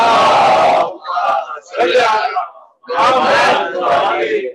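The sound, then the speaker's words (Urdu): A crowd at a religious gathering chants salawat and religious slogans in unison: several loud, massed vocal bursts broken by short pauses. “اور یہ صلوات و نعرے بھی میرے account سے خارج ہے, یہ الگ ٹائم ہے, یہ ایکسٹرا ٹائم ہے.”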